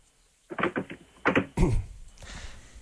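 A car trunk is shut: a few quick rattling clunks come first, then one heavy thump with a fading tail.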